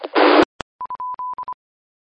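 A telephone tone after a dropped call: a short burst of hiss and a click, then a series of steady mid-pitched beeps of uneven length, alone with no voices.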